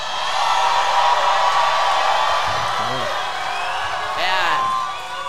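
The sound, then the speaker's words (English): A live theater audience cheers in a loud, sustained roar of crowd noise, with a few shrill whoops rising out of it while people talk over the din. “You're hearing the sound of a live theater audience on the Wild Ride podcast for the very first time.”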